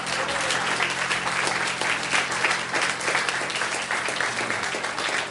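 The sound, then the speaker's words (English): A church audience claps their hands in praise during a worship service, steady dense applause holding evenly throughout with many overlapping claps. “Let's give the Lord a hand clap of praise tonight.”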